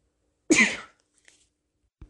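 A single short, harsh throat clearing, breathy and forceful, stands alone in near silence. A faint click follows about a second and a half later.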